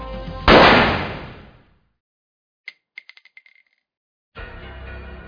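A single pistol gunshot: a loud, sharp crack that trails off in a long, noisy decay, followed after a pause by a few light, high metallic clinks.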